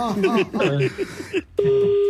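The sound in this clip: A single steady keypad beep from a caller's phone line sounds for about half a second, holding one even mid pitch, right after a stretch of people talking.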